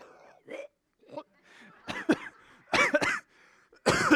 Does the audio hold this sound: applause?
no